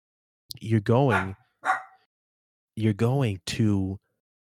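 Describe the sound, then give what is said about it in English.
A dog barks in a few loud, tonal barks and yelps, grouped in two clusters with short silences between them. “excuse my dog”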